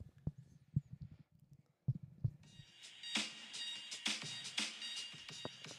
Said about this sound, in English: this is the sound of me walking away.